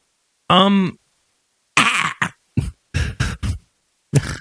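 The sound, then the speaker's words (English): A person clears their throat, starting with a short voiced rasp, then a string of about six rough, choppy bursts and one final burst after a short gap. “you trying to clear your throat?”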